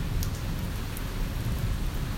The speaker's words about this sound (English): as the rain comes down and washes away the sins of man.